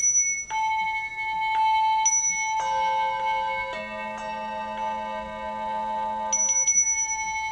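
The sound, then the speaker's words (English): Small chime bells are struck one after another like a sound board, so many bright, sustained tones at different pitches overlap and ring on together. A final quick cluster of higher strikes comes at the end. “You can make up your own little chimes, and it's great because you can, you know, have something start and, you know, ring for”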